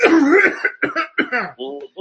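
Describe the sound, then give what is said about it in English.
A voice imitates a cough with a few short, exaggerated voiced bursts in quick succession. The coughs are loud and heard alone. “Pretty soon, Donald Trump's going to go up on the podium and just cough. He's going to do this.”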